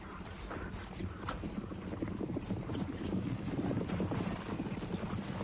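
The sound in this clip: Galloping horses' hooves clatter in a quick, uneven rhythm, blended with wind noise and a low rumble throughout.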